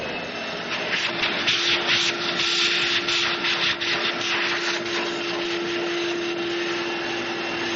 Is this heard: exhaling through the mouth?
no

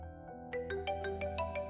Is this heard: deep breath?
no

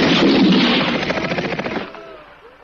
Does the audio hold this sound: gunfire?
yes

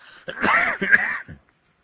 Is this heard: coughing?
yes

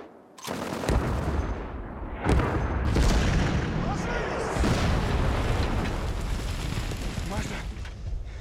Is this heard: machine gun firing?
yes

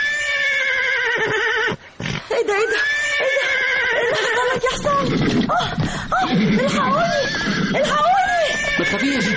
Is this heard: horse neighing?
yes

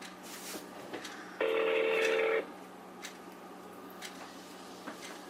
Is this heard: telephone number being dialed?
yes

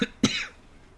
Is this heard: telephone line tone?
no

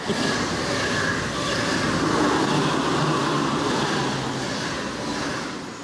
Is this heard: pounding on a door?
no

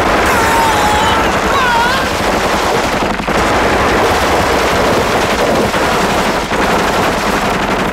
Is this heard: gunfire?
yes

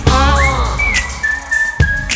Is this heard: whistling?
yes

